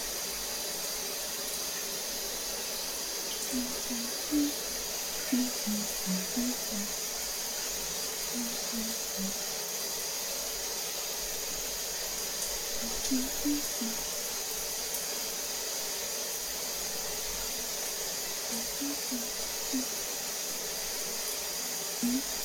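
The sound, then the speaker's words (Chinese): Steady hiss of water running during a bath or shower, continuous and even throughout, with faint voice sounds now and then. “洗个澡，好好放松一下，一会儿还得给他做饭呢。好舒服啊！”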